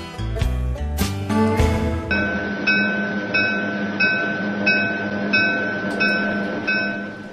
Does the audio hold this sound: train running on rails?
yes